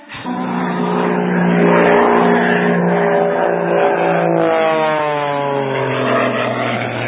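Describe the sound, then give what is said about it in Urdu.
Airplane engine drone, loud and continuous, with a strong steady hum and stacked harmonic tones that shift slightly in pitch in the later seconds. “جہاز کی آواز آ رہی ہے.”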